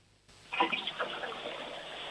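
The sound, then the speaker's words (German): A toilet flush: after a short quiet moment, rushing water starts abruptly and carries on as a loud, steady gurgling rush to the end. “das war eine tolle Klospülung”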